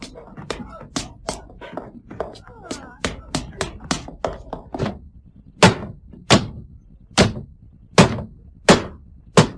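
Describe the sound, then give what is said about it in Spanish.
Axe blows hack at a bedroom window: a rapid run of sharp, woody thuds, then a slower series of heavier, ringing strikes spaced about a second apart. “Está dando hachazos a una ventana de un dormitorio.”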